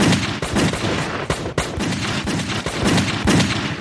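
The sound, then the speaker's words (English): Gunshots fired at random into a dark basement: a rapid, irregular barrage of loud sharp cracks and booms, many shots overlapping with no pause. “They both heard movement and fired randomly into the black basement.”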